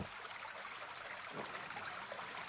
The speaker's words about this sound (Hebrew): אני אוהב, נורא אוהב לנגן על הרב ככה עם צלילים של נחל